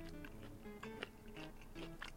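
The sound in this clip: Someone chews a slice of salami while drinking beer, producing faint, soft moist bites and crunches in a quick irregular rhythm, with several slightly sharper bites standing out.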